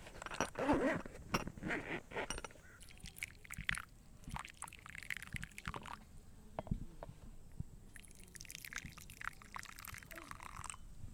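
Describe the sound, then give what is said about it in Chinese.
Pieces of a tea set are laid out and cups are washed, with many faint clicks, taps and clinks at an irregular rhythm. Later comes a soft, steady stream of poured water, and the whole passage stays quiet. “这是倒水的声音， 洗杯子的声音。”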